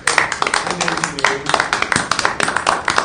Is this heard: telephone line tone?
no